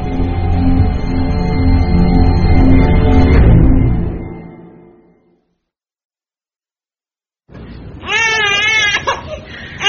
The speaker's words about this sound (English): Sorry, she's a fussy baby, this one.